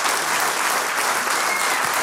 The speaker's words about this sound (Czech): potlesk pro vás